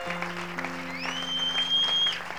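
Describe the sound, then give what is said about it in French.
Church audience applauding and acclaiming God, with faint clapping under sustained musical tones and a high rising whistle-like tone partway through. “En train d'acclamer Dieu en lui disant merci pour ta parole.”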